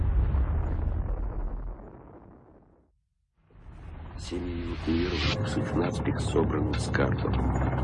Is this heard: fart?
no

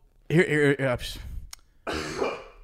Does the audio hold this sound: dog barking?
no

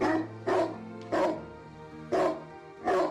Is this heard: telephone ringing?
no

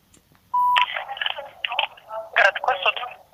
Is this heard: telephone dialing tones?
yes

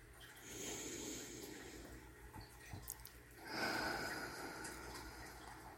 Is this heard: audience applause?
no

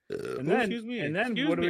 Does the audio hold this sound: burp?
yes

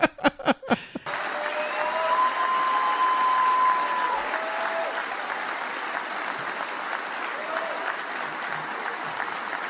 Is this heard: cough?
no

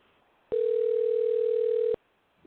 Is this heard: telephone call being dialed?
yes

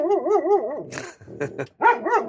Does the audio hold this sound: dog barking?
yes

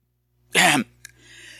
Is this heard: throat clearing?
yes

